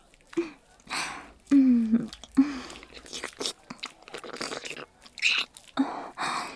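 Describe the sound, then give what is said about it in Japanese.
Someone eating: chewing and biting in uneven, moist bursts with short pauses between them. A voice is heard in brief moments among the bites. “お部屋で食べるのね。”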